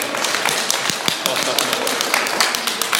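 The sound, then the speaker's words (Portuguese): Applause from an audience at a talk, many overlapping claps forming a dense, steady patter that lasts the whole time. “Pode bater palma pro Digão que ele merece.”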